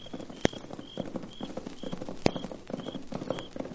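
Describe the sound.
Horses ridden toward the listener give a steady, rhythmic clip-clop of hooves. The hoofbeats are fairly faint and continuous, broken by two sharp, louder clicks.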